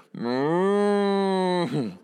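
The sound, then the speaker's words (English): A cow lets out one long, steady, low moo near a wedding ceremony in Texas. The moo is loud and richly harmonic and ends in a short, lower grunt. “because it's Texas and not the suburbs of Boston. And so there's a cow somewhere.”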